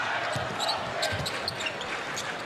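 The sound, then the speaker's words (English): During an NBA game involving the Bucks, a basketball is dribbled left-handed toward the top of the key. Many quick, soft bounces thud under a constant wash of arena crowd noise. “Kyle Korver, left-hand dribble to the top of the key.”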